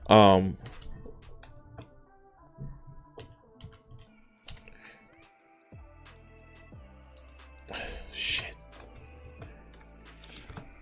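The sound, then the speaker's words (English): A hashtag is typed on a computer keyboard in a new browser tab: scattered, crisp keystroke clicks at an uneven pace, with a louder cluster at the start and another burst near the end. “Let's see. Hashtag. We're gonna just type it up. Let's do this.”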